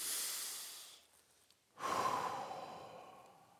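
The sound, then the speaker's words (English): A person takes a deep breath: a long, airy inhale, then a brief pause and a longer, fuller exhale that slowly fades. The breathing is soft and heard alone. “Take a deep breath with me.”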